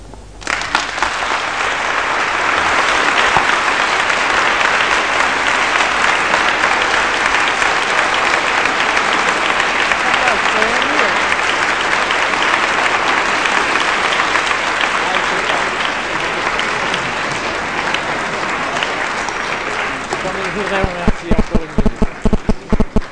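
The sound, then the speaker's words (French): An audience applauds warmly after an evening lecture on Robespierre and the French Revolution: a long, loud, dense stretch of clapping that thins into scattered, irregular claps near the end. “Monsieur Guimain, je vous demanderai de me laisser être l'interprète du nombreux public qui ce soir vous a si chaleureusement soutenu par leur applaudissement.”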